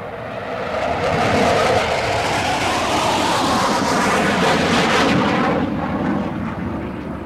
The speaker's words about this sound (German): Sie fährt weg aus der zerbombten Stadt in einem metallikroten Cadillac, Baujahr ca. 1956.